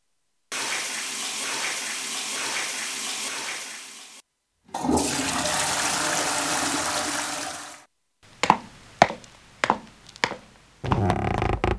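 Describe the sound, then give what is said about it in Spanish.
A person urinates into a toilet, heard as two sustained stretches of steady, hissing water noise with a short gap between them, followed by several sharp clatters and the start of another splash. “Voy a mear y seguimos.”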